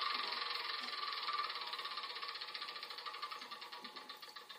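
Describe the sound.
A spinner wheel turning in a Game of Life video game gives off rapid, even ratcheting clicks that gradually slow and soften as it winds down, with no voices over it.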